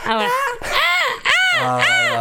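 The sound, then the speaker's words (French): A human voice imitating a seagull cry from Lac du Salagou, a series of loud, arched wailing calls that rise and fall in pitch with brief breaks between them. “C'est un cri de mouette du salagou.”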